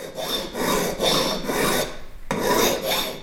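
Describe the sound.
A watchmaker files brass at a workbench, making steady rasping strokes in an even back-and-forth rhythm, with a brief pause before the last two strokes, and no voices.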